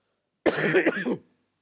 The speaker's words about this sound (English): I apologize if I keep coughing during the sermon.